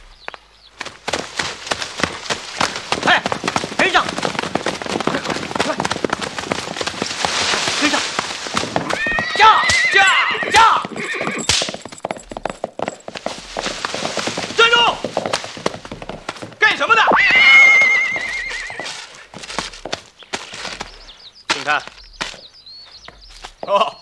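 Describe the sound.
Horses neighing and hooves clip-clopping as riders mount and set off, a dense, busy clatter that runs throughout, with several high whinnies rising above it and shouting voices mixed in.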